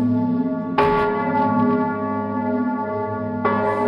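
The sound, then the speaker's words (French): Church bells ring out over a small French village near Nancy on a December night, pulled by hand on a rope. Rich, sustained metallic tones hum throughout, with two loud fresh strikes about three seconds apart. “Dans ce village, cette nuit-là, les cloches sonnent.”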